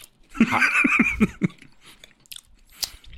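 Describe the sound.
Someone bites into a Trick Kat chocolate bar and chews it, making a few crisp crunches and wet chewing sounds. A short voiced sound comes early on, and the later crunches are sharper and more spaced out.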